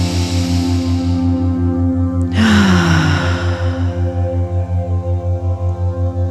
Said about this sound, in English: Just inviting you to take a nice deep breath in through the nose, out through the mouth, and again.